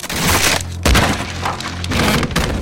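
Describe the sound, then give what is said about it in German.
A wooden sailing ship's hull cracking and splintering as it strikes a coral reef: a loud, dense crash of breaking timber and rushing noise, with a sharp burst partway through. “kracht es. Das Holz der Endeavour zersplittert. Durch den aufgerissenen Rumpf dringen augenblicklich Wassermassen ein. Das Schiff sitzt fest auf einem Korallenriff.”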